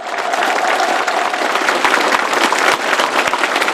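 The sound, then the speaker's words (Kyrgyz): Sustained applause for performing artists at the close of a state gala performance attended by national leaders, a dense, continuous crackle of many hands clapping at a steady loud level throughout. “Си Цзиньпин жана Джин Чжэнгын артисттердин тартымдуу оюндарына арт-артынан кол чаап урматын билдирди.”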